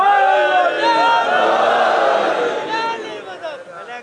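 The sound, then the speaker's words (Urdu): A crowd with both hands raised chants a slogan in unison, loud massed voices that hold steady and then thin out near the end. “دونوں ہاتھ بلند کر کے نعرہ”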